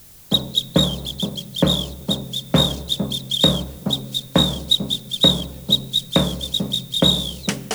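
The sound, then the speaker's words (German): A tom-tom drum and a samba whistle play together in a Latin American samba rhythm: many steady, punchy low drum beats, with short, shrill whistle blasts chirping in regular time over them throughout. “Erst spielte das Tom-Tom zusammen mit der Trillerpfeife.”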